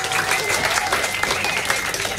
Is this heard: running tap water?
no